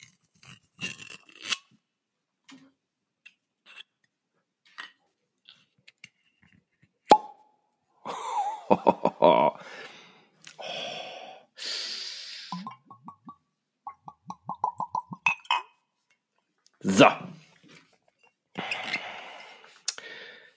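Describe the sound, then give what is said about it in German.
A bottle is opened slowly in a close, ASMR-style manner: scattered quiet clicks and taps, a sharp pop, then bursts of crinkling, rustling and gurgling separated by near silence. “Und ich werde diese Flasche jetzt öffnen. Ich mache das mal hier so ASMR-mäßig.”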